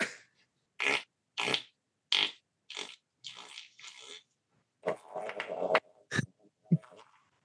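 A professional farter produces many short, buzzy flatulent bursts, each a ragged blast separated by brief gaps, with a closer cluster of rasps toward the end.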